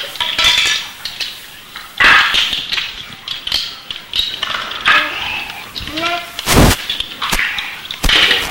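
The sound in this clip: Pots, pans and cutlery clatter during home cooking of fish, with many irregular loud clinks, clanks and scrapes following one another in quick succession.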